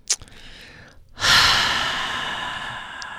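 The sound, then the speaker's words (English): Calm breathing during a guided breathing exercise: a brief, quiet breath at the start, a pause, then one long, steady exhale that slowly fades over the remaining seconds. “See the breath, you guys? Just good, calm.”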